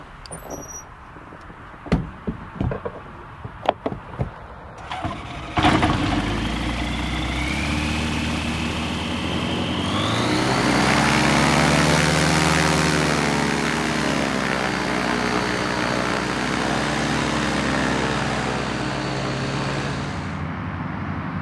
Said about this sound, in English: We're using a Dimona, which is essentially a glider in shape and performance,